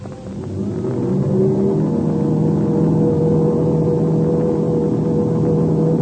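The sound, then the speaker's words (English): Engines of an English aircraft running up for takeoff in an air race, a deep rumbling drone that swells over the first second and then holds loud and even. “The English ship's running up its motors.”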